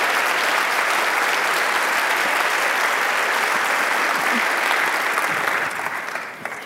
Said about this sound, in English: I know we're doing a lot of applauding. I think that it's important to do one more time